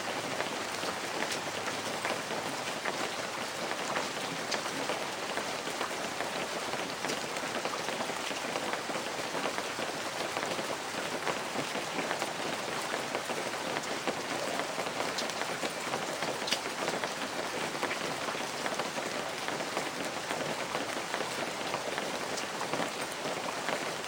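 Rain patters against stained glass windows in a steady, dense, even hiss of countless drops that never breaks or changes over the whole stretch, with no voices.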